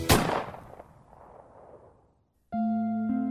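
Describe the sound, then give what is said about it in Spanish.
A single gunshot in a dramatized tale of a knight fighting pirates: a sharp, loud crack whose rumbling tail fades over about two seconds. After a brief silence, steady tonal music begins. “El caballero luchó con los piratas, hasta que un disparo lo derribó.”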